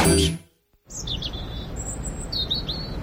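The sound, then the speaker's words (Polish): Small birds chirp in early spring, with a few bursts of high, quick twittering over a faint steady hiss. A short burst of other sound and a moment of silence come before them. “Ptaszki ćwierkają, że idzie wiosna, ale czy to już?”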